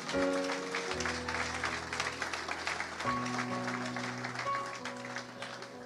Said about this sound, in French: Vive les hommes. Est-ce que les hommes, nous pouvons nous acclamer?